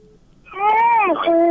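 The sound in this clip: A child's voice behind a radio phone-in call: a short, high-pitched wavering vocal sound rises out of quiet and holds for about a second.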